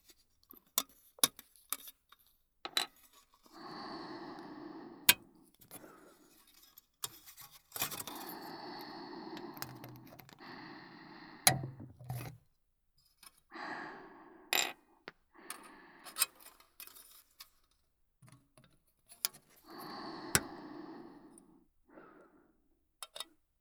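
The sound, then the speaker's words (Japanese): Many small parts being cut: a long run of sharp, quick snips and clicks, scattered irregularly, with soft breathing and sighs rising in between. “こっちは細かい部品が多いので、切る音が多めです。”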